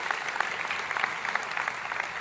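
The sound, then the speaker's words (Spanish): Audience applause during a church sermon: a dense, even patter of many hands clapping throughout, fairly faint and with no speech over it. “sí, sí va a aplaudir.”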